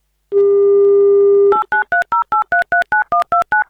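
A telephone dials a call: a steady dial tone holds for over a second, then gives way to a rapid, evenly spaced run of many short touch-tone beeps of shifting pitch.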